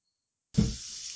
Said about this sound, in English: I hear the water in the background. That was me taking a piss. I took the mic in there with me.